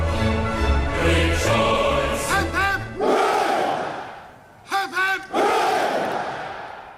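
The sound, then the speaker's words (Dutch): A full church audience shouts hip hip hooray in unison as the people's homage at a royal ceremony. Loud chanted cries rise above a steady crowd murmur, with a second burst of shouting later on. “Ja, hip hip hoera, dat werd uitgesproken door een volle kerkzaal die hier op dit moment ook, en dat was ook een nieuw element, hè, de homage of the people, een eerbetoon van het volk aflegde.”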